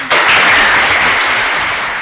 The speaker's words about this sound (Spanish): quiero volverte a dar las gracias y otro aplauso